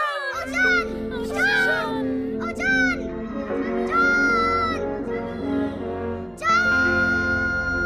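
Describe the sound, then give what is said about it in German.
Balloons burst on a pillow and girls scream, with sharp onsets and shrill, high sustained cries in several overlapping bursts. “Auf ihrem Kopfkissen platzen die Luftballons und die Mädchen schreien.”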